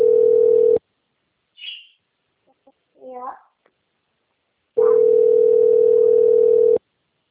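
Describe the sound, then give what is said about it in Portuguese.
A steady telephone dial tone hums as a call is being placed, sounding in two long stretches separated by a gap holding only a few faint, brief sounds. “Vou ligar pro pai com licença.”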